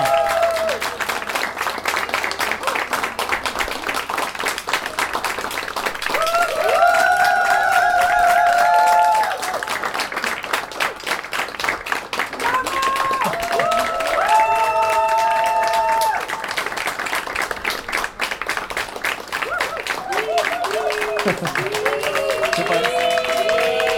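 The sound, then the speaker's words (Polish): Long audience applause and cheering greet a singer at a live radio concert, many hands clapping continuously for over twenty seconds while voices and whoops rise and fall above the steady clatter. “Dzięki wielkie. Wielkie, wielkie brawa.”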